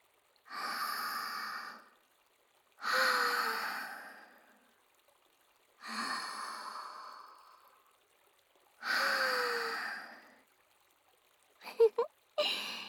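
Deep breathing drawn with the shoulders: four long, slow, airy breaths, evenly spaced and soft, each swelling and fading away, with a few faint brief sounds at the very end.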